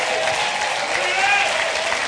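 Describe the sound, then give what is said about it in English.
Audience applause: a dense, steady wash of many hands clapping together that holds at an even level from start to finish. “See, everybody goes to clapping.”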